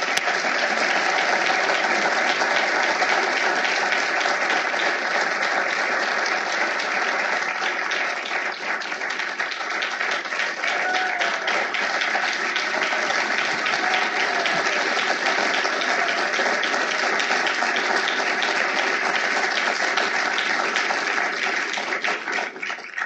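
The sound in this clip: Sustained audience applause welcoming a speaker at an evening law lecture, dense, even clapping that holds steady for over twenty seconds.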